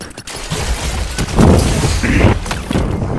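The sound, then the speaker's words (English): An ice grenade explodes in a Destiny 2 Crucible match. A loud, booming, crackling blast swells amid dense bursts of game noise and lingers to the end. “Good ice grenade.”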